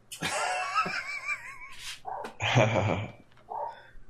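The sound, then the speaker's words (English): A dog vocalises with wavering, high whine-like cries that bend up and down in pitch. A few shorter, rougher yelps and snuffly bursts follow, with no clear speech. “That's a dog.”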